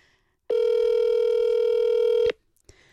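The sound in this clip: A telephone tone sounds as a call is placed to a listener's mobile phone: one long, steady beep lasting almost two seconds, followed by a short click.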